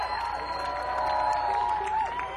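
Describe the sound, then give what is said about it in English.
A live audience cheers and applauds at a muddy music festival concert. The steady crowd noise rises slightly in the middle, while a sustained tone hums beneath it. “applause, folks.”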